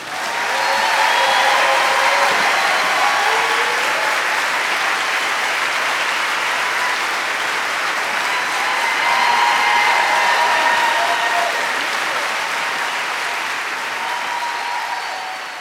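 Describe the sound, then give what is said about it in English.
A Seattle audience applauds warmly to welcome a guest on stage, a dense, steady wash of clapping that holds loud for about fifteen seconds and fades slightly at the end. “Please join me in giving Jeffrey a huge and unusually warm Seattle welcome to Jeffrey Tambor.”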